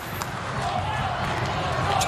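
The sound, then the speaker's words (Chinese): A volleyball serve is struck by a Polish player during a Poland–USA volleyball match: one brief, soft thump of the ball, mostly buried under commentators talking and arena noise. “科门达的发球， 然后到前排”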